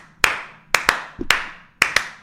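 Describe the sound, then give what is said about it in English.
Hands clapping in sharp, loud claps during basketball warm-up layup lines: six crisp claps in an uneven rhythm, some in quick pairs, with a soft thud between them and no talk. “They're doing the clapping.”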